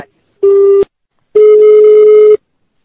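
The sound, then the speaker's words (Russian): Telephone ringing tone on an incoming call: two steady electronic beeps at one pitch, a short burst followed by a longer one, separated by silence, with no voices. “Я не знаю, кто-то нам звонит.”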